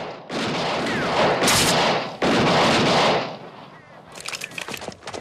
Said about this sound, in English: wakes up the regulators by firing his guns